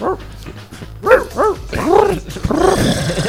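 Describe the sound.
A dog barks in a quick series of sharp, fairly high-pitched barks and yips, loud and close together.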